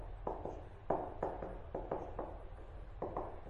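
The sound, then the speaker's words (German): Chalk writing on a blackboard during a maths lecture: a series of firm tapping and scraping strokes, uneven in rhythm, with short pauses between them. “Ich muss viel sanfter schreiben.”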